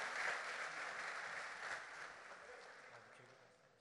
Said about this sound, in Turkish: alkışlarımızla sahneye davet ediyoruz